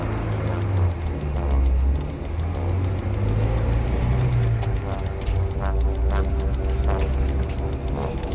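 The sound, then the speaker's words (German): A car's engine is left running while the car is stopped on a residential street: a steady, low idling rumble that hums continuously throughout, with slight swells in level. “Lassen Sie den Motor laufen.”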